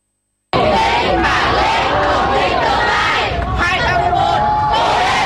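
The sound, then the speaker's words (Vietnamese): Loud crowd cheering and shouting from volunteers and parents greeting students leaving a grade 10 entrance exam in Vietnam. It starts abruptly and stays continuous, with voices mixed into the din. “Bước ra khỏi phòng thi, những tiếng vỗ tay cổ vũ của lực lượng thanh niên tình nguyện và cha mẹ phần nào động viên tinh thần thí sinh.”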